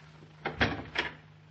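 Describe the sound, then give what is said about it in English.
A cabin door's lock being sprung: three short, sharp clunks close together over a faint steady low hum, with no talk. “I'll spring the lock on this door. Don't open for anyone but me.”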